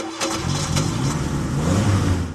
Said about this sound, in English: But for now, I'll just get into my 1957 Chevy convertible.